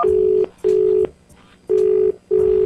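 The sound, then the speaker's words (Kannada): Four steady, identical-pitched telephone keypad tones dialing a call, each lasting under half a second and separated by short gaps. “ಈಗ ನಮ್ಮ ವಿಜಯ್ ಪ್ರಕಾಶ್ ಅವ್ರಿಗೆ ಒಂದು surprise ಕಾಲ್ ಕೊಟ್ಬಿಡೋಣ ಅಲ್ವಾ.”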